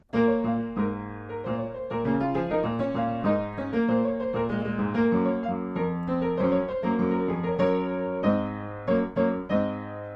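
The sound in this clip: A piano is played slowly, with both hands sharing a melody in the middle voice beneath a counterpoint line above. Sustained notes and chords overlap in a measured pulse, closing with a few separated chords.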